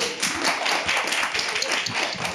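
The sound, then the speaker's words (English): An audience claps to welcome the panelists at a panel discussion on mental health and addiction, a dense, continuous patter of many hands at a steady, moderate loudness throughout. “And there are our lovely panelists. Please give them a warm welcome.”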